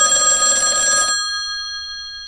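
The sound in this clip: A telephone bell rings loudly in one burst of about a second, then stops abruptly while a few steady metallic tones fade slowly away.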